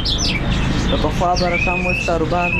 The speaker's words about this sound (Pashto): د کندهار ښار د مرغانو بازار کې کینری، واټر چوغه کې بلبلان، توتیان، زرکی، کرکان او ډول ډول مرغان ست